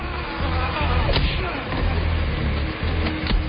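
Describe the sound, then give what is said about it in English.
A woodchipper's huge grinding cylinders start spinning, producing a loud, steady, low mechanical rumble with a dense roar on top that holds throughout. “The hillbilly mother presses a button and the machine's huge grinding cylinders start to spin round.”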